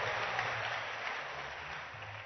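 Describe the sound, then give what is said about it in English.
Congregation applause at a church service, a steady, fairly faint wash of clapping that holds at an even level throughout, with no talk over it. “Clap your hands for Jesus. And you may be seated.”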